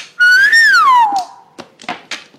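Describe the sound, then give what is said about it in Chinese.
A man whistles one long note during a mahjong game. The note climbs, then glides down and trails off, and a few short knocks follow. “上校吹了声口哨，闲聊暂时终止了。”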